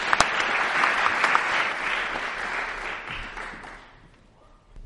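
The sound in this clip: Audience applause welcoming George and the other panelists to the platform: steady clapping with a few sharp early claps, gradually thinning and fading out after about four seconds.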